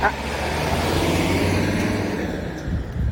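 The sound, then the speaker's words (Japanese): An industrial waste truck drives past with a steady, low engine rumble and road noise, holding a fairly even level for a few seconds. “なんか産業廃棄物の運転手さんがむちゃくちゃ元気に走っていかれましたね”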